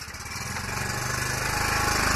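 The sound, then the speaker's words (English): A gas-powered generator engine runs with a rapid, steady chugging pulse that grows slightly louder over about two seconds. “And now it is time to power the generator. The bulbs in the room shine brightly as the generator comes alive.”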